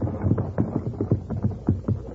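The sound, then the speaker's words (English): A horse team pulls a wagon down a road, making many steady, muffled hoofbeats in a loping rhythm over a low, continuous hum. “Listen. That's a team and wagon. And it's heading right down the road where the horses are hidden.”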